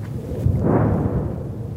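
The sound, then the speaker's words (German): A deep, muffled rumble from a heavy detonation amid artillery fire in the Gaza Strip swells to a peak near the middle, then slowly fades. It is a single low boom lasting under two seconds. “Dem Knall des Artilleriefeuers und der Angriffsflüge der israelischen Luftwaffe folgen schwere Detonationen im Gazastreifen.”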